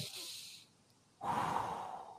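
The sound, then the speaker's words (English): A person takes a deep belly breath: a soft, airy inhale, a short quiet pause, then a longer, fuller breathy exhale, faint overall. “do belly breaths, which I've been like trying to focus on as you're telling me, just going”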